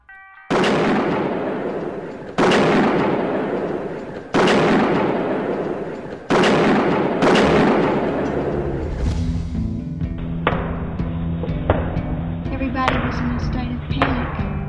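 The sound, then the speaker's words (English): Gunfire during a police shootout, with officers returning fire and two different kinds of shots. Five loud, sharp blasts with long decaying tails come at a slow, uneven pace, followed by a few softer bangs over a lingering tonal hum. “It was just chaos. It's like a battle scene. There are two different kinds of shots. Apparently, police are returning the fire now.”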